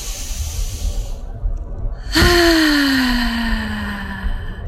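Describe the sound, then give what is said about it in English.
A large exhaled out-breath during a breathing exercise: a breathy rush of air, then a long voiced sigh that starts strong and slowly falls in pitch. “Large capacity out breath sound. Please. 1, 2, 3. Once more.”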